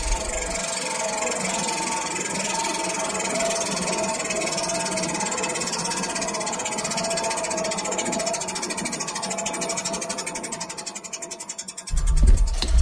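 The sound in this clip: A prize wheel spins for a draw, giving a rapid, continuous stream of ticking clicks that gradually spread out and slow toward the end, before a brief louder low burst at the close.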